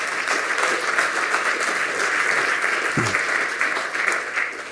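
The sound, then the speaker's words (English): An audience applauds a presenter at a lightning-talk session, a dense, steady round of clapping that holds at an even, fairly loud level from start to finish without a clear peak or fade. “I think that deserves a round of applause for these guys.”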